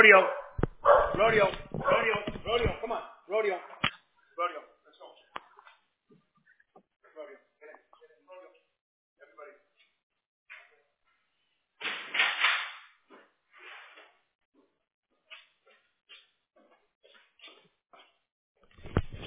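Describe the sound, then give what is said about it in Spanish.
Dogs barking at another dog they have spotted nearby, loud clustered barks at the start and another burst later, with a person's voice calling between the quieter stretches. “tenía los perritos aquí al lado y vieron otro perrito.”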